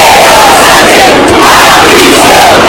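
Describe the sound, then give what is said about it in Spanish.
A protest crowd of about 50,000 people in central Madrid chants against the government. The massed voices form a loud, steady, unbroken roar throughout. “manifestaciones sobre todo contra el gobierno, como se escuchaba en los cánticos, por ejemplo, en esta, 50.000 personas en el centro de Madrid”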